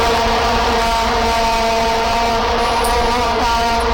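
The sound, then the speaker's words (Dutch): Vuvuzelas at the 2010 World Cup in South Africa: a loud, unbroken, buzzing drone of many horns held at one steady pitch throughout, with no gaps or rhythm. “Nee, zo klonken die vuvuzela's. Oh ja. Kun je dat nog herinneren? WK 2010 in Zuid-Afrika.”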